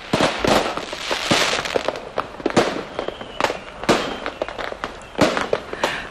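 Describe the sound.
Fireworks exploding around New Year's Eve, many sharp bangs and crackling bursts going off in irregular succession, loud throughout with no talk.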